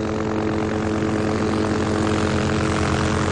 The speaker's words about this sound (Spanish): El helicóptero sobrevuela el río y le pasa de largo.